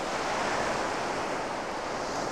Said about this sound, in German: Das Meer beruhigt mich.